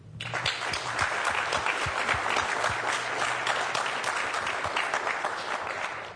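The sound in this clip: Audience applause welcoming a speaker at a technical conference talk: steady, dense clapping that holds an even loudness for about six seconds before easing off at the end.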